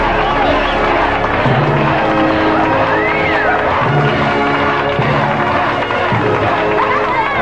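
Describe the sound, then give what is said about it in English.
An audience cheers and claps through a standing ovation, a dense and loud roar of applause mixed with shouts and whoops that holds steady from start to finish. “As Batman swung down to the stage on his bat rope, the audience rose to give him a standing ovation.”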